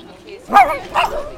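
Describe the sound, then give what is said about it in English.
A puppy yips twice during play, each bark short and high-pitched, the first slightly louder than the second. “I'm playing with the puppy and it makes me so happy.”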